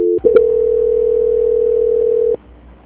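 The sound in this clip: Telephone call-transfer tone on a phone line: a brief tone and a click, then a single steady mid-pitched tone held for about two seconds before it cuts off into faint line hiss.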